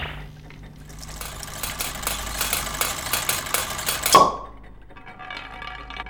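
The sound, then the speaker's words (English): A marble machine runs with a steady mechanical rattling and clatter, and a single sharp clack near the end marks a marble dropping before the whirring settles lower. “Listeners, this Loki guy just touched the marble machine and a marble dropped.”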